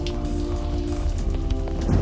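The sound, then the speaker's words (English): Summer rain falls in a dense, continuous patter, an even and fairly loud hiss of many drops with a faint low steady hum underneath and no voices. “Sweet summer rain, the kidnapper said. Like God's own mercy.”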